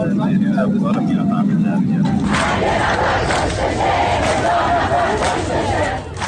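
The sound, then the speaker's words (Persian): Striking workers at a southern aluminium industrial complex chant protest slogans together, a loud, massed crowd of voices that surges in after a single voice speaks briefly at the start. “اعتصابی همراه با شعارهای اعتراضی. کارگران مجتمع صنایع آلومینیوم جنوب در نامرد هم دست به اعتصاب زدند.”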